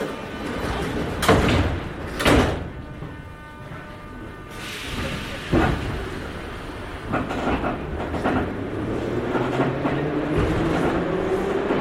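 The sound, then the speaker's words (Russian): Metro train doors slide shut with a few sharp, loud bursts, followed by the steady rumble and clatter of the train, with a whine that rises in pitch toward the end. “Осторожно, двери закрываются.”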